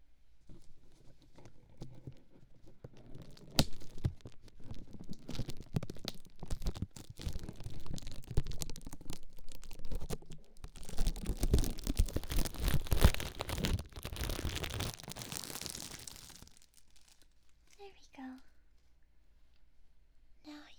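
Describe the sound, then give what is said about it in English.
Plastic being crinkled and peeled away in an ASMR ear-care role-play, a long run of close, crackling and tearing rustles that swells in the middle and then stops, leaving near quiet. “Now then, let's remove the plastic from your right ear.”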